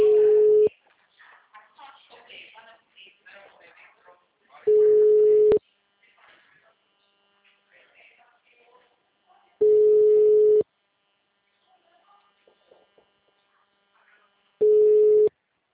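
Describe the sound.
Telephone line tone after a dropped call: four long, steady beeps, evenly spaced about five seconds apart, with faint murmuring between them.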